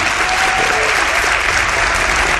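Loud, dense audience applause for a tour guide, with many hands clapping in a continuous even wash that stays steady from start to finish.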